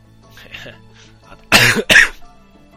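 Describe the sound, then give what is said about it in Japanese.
A person with a lingering cold clears their throat in two loud, rasping bursts in quick succession, following a stretch of faint, quiet sound. “咳払い申し訳ございません。”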